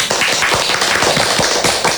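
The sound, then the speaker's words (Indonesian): Children clapping for a girl who paints with her feet at a painting competition, loud, uneven claps with some dull taps and thumps mixed in. “Beliau akan melukis dengan kakinya. Beri tepuk tangan dulu.”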